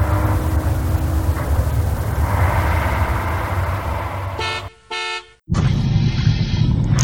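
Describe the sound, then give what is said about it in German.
A bus arrives with its engine rumbling low and steady; the rumble briefly gives way to a short, bright horn toot, then resumes. “Da steht schon Kai und da kommt auch der Bus”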